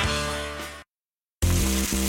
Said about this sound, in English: That's the sound of steak searing in its juices on your new pellet grill.